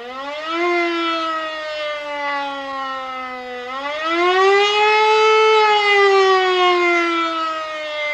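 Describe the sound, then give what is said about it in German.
A civil defense air raid siren wails alone in a loud, steady harmonic tone. Its pitch dips slightly at first, then swells upward around the middle and eases back down toward the end. “In Zeiten des Kalten Krieges bedeutete dieses Signal Luftalarm. Glücklicherweise war es nur bei Probealarm zu hören.”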